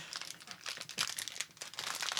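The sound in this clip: Crinkling as the wrapper of a gluten-free, dairy-free nut butter truffle candy bar is opened: a quiet, irregular run of crackling rustles with a few sharper crunches.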